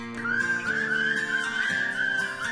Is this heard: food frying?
no